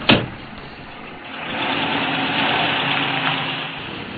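Car engine droning steadily while driving, a muffled, even hum that swells slightly louder partway through, with a soft click at the very start and no voices.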